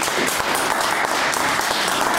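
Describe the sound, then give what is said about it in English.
Audience applause for a founder of biology and medicine, thick and loud clapping that runs evenly throughout with no voices over it. “Anyway, big round of applause, please, for the founder of Biology and Medicine, Dr. Alice Hodkinson.”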